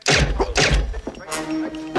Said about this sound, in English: The faceless man shoots Fletcher twice in the chest with a silenced gun.